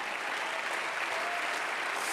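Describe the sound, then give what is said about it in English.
A church audience claps along in worship, a steady, even wash of many hands that stays fairly quiet and constant without any voices on top. “Somebody clap your hands to the Lord.”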